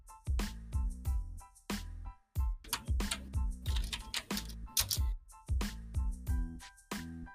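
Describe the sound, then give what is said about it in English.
Typing on a computer keyboard while writing a private message: quick, irregular clicks and taps in dense bursts, with one brief pause partway through before the keystrokes pick up again at a steady pace. “Type something in the private message.”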